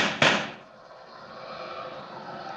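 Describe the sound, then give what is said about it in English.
A gunshot fired by a police officer at a car: one sharp, loud crack that trails off into a long, fading hiss, with no voices. “Nice shooting, officer. One of those bullets bounced off my chest.”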